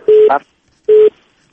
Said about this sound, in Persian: متاسفانه تلفن آقای بشیری قطع شد.